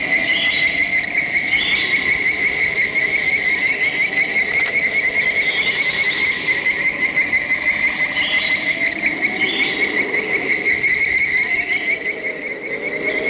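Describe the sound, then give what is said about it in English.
Giant ant stridulation sound effect from the 1954 film Them!: a loud, continuous, shrill cricket-like trill with a piercing whine that swells and ebbs in waves throughout. “This was probably just a scout foraging for food. You heard the sound. The stridulation. It communicated with others in the colony.”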